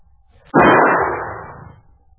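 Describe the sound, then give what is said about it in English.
A single gunshot, the last round fired in a radio drama, a sudden sharp crack followed by a noisy decay lasting about a second, alone against near silence. “Let him have it, Ace. Go ahead. Right, here goes our last shot.”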